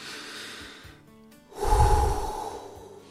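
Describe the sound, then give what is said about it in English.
A deep breath taken just before a prayer: one loud, rough breath lasting about a second, heavy in the low end, following a quieter stretch of faint noise. “Let's take a deep breath and have a prayer.”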